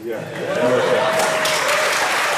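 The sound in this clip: Audience applause at a large scientific meeting where a particle discovery is announced: a dense, steady wash of clapping that swells early and stays loud, with a voice audible over it.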